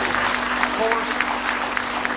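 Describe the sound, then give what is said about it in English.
A church audience gives a round of hand claps in praise, quick overlapping claps under a voice speaking. “Give him one more hand clap of praise in the house of the Lord.”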